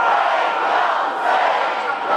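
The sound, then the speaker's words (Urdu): A large crowd chants "Labbaik ya Hussain" together at a religious gathering, its voices merging into a loud, sustained massed shout. “سب مل کے بولیں پانچ دفعہ لبیک یا حسین”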